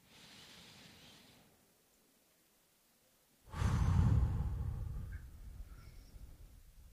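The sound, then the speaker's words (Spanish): A deep breath in and out during a guided eyes-closed relaxation exercise: a soft, airy inhale first, then after a short quiet pause a louder, longer breathy exhale that slowly fades. “cierra tus ojos. Sí. Inhala profundo.”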